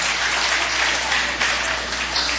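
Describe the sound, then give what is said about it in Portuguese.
A church audience claps in a dense, steady burst of applause that holds at an even loudness from start to finish, with no clear voices on top. “Essas palmas podem ser melhor para Jesus, não pode não?”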